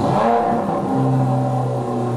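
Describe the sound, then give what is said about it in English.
A Formula One race car engine at full throttle for the season-opening Bahrain Grand Prix, with a loud, buzzing, harmonic drone that holds steady throughout. “let's go full throttle into the weekend. We kick it off at Bahrain for the season opener of the Formula One Grand Prix.”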